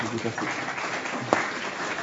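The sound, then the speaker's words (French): An audience claps for a speaker at the end of a presentation. The applause is steady and even, with people talking over it, and a single sharp knock cuts through near the end. “On peut applaudir Monsieur Battier.”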